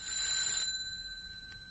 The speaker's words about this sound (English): Then, 3 minutes after the hour, the brass screw heads touched, and the electric bell began to ring.